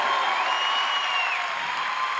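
Audience applause rises at an evening music program honoring its organizers, a dense, steady patter of many clapping hands that holds at an even level throughout, with no voices standing out.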